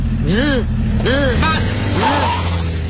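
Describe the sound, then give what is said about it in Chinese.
A car engine runs as a learner driver pulls away during a driving lesson, a steady low hum under a man's voice giving short spoken instructions. “踩离合，挂档，哎，抬离合，给油，松手刹，走。”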